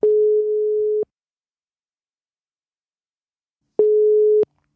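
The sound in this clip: Two steady, mid-pitched telephone call tones on a line, each lasting about a second, separated by a long silent gap, with no voices.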